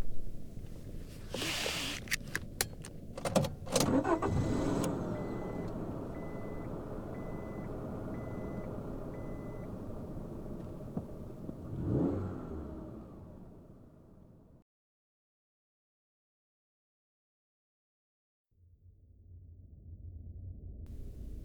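Steady engine and road rumble from a car being driven, opening with a few sharp knocks and a faint repeating beep, then a brief drop to silence before the low drone returns.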